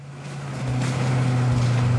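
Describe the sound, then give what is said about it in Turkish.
A fully rebuilt 135-horsepower V8 6.2-litre naturally aspirated diesel engine, free of knocking, runs as a steady low drone with a constant hum. Its loudness rises slightly in the first second, then holds even. “Çelik Kardeşliği ekibi 135 beygirlik V8 6.2 litrelik atmosferik dizel motoru tamamen elden geçirdi. Harika çalışıyor değil mi?”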